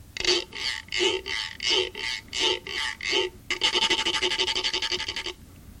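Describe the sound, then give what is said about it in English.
A Pima notched rasping stick is scraped in a series of separate, evenly spaced rasping strokes, then in a quicker run of short, rapid scrapes that ends abruptly, leaving near silence. “decided to use a rasping stick or notched stick instead of a drum or a rattle. This rasping stick sounds like this.”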